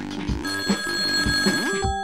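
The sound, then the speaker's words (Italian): A telephone rings with an incoming call, a repeated bright trilling ring in bursts with no talk over it. “La prima telefonata arriva subito.”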